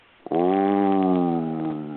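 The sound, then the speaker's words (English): A voice imitates an alligator roar: a single loud, low, growling note that starts abruptly and holds steady for nearly two seconds, then eases off slightly at the end. “And alligators can roar. They make this sound during mating season or when they're angry. And you heard this sound. It was like,”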